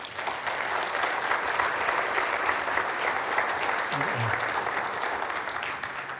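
Applause from a church audience welcoming a guest onto the stage: dense, steady clapping that holds an even level for the whole six seconds, with no voices over it.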